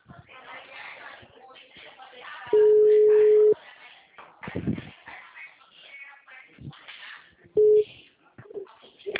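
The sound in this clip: Steady, low telephone tones follow a dropped call: a beep lasting about a second, then later a much shorter one, both cutting through ongoing conversation between people talking.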